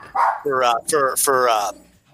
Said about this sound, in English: it's a dog at the end of the block going absolutely nuts